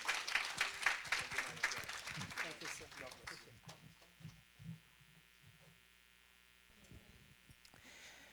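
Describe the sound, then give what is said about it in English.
A church audience clapping to welcome a preacher to the microphone, a brisk burst of applause that fades after about three seconds, leaving a steady low hum and a few voices. “Can you welcome him with a hand, please?”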